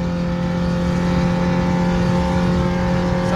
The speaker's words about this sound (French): On est déjà à 140. Pour une R5, c'est pas mal. 150.